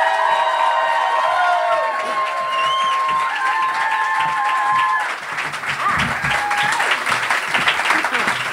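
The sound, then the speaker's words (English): An audience at a live comedy show applauds and cheers to welcome two comedians to the stage. Sustained loud clapping mixes with whoops and high whistles throughout. “Could you please put your hands together and welcome to the stage Felicity Ward and Wendy Wason!”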